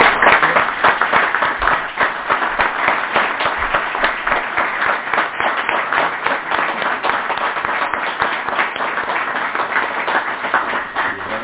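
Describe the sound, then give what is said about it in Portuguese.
Applause at an inauguration ceremony: a sustained, dense patter of many people clapping for about eleven seconds, holding an even level throughout with a slightly dull, muffled top end. “Creio que merece uma salva de palmas.”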